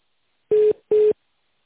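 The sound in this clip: Two short electronic telephone beeps sound as a call is transferred. They are steady, of equal mid pitch and evenly spaced, with silence around them and no voices.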